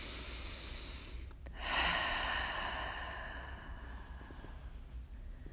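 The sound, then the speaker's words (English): A deep breath taken during a guided prayer: a soft, breathy rush that swells after a short pause and then slowly tapers off, heard alone over a steady low hum. “Taking another deep breath.”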